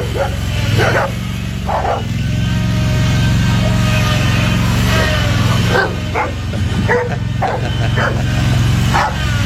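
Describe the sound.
A brown dog barks in several sharp, irregularly spaced bursts over a steady low engine drone.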